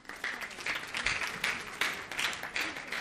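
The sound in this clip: An audience applauds a guest at a Persian-language talk. Many hands clap in a dense, crackling wash that swells and eases in a few waves, with no clear speech over it.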